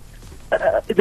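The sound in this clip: Telephone line tone as a caller is put through to a Malayalam radio phone-in, faint hiss giving way to two short bright tonal bursts near the end.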